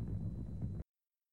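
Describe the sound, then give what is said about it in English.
Low, rumbling roar from the Skylab 1 rocket launch on May 14, 1973. A dense, steady rumble holds for under a second, then cuts off abruptly into silence. “The audio you just heard was from the launch of Skylab 1 on May 14th, 1973.”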